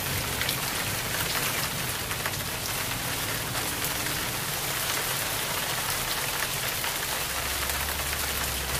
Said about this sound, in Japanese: あ、雨だー！